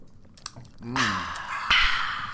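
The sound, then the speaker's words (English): Slurping from a caffeinated soda comes as two fairly faint, noisy sucking draws, the second starting partway through. A short low vocal sound comes just before the first. “Okay, slurping break.”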